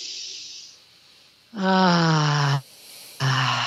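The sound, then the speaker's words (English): A breath is drawn in softly through the nose, then let out through the mouth as a long voiced, sighing tone. A second sounded exhale begins right after. “and out through the mouth and just really sound on that exhale, it helps me ground my energy down”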